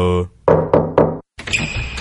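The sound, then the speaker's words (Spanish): Three quick, evenly spaced knocks on a door serve as a secret signal; each knock is loud and solid, with other brief sounds just before and after. “La contraseña es tres golpes en la puerta.”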